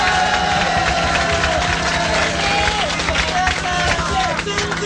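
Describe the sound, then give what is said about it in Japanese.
Concert audience applause, a dense steady wash of many hands clapping mixed with crowd noise, continuous and loud across the whole stretch without a clear break. “MMP の館の人たちにも一つ拍手をいただければ。”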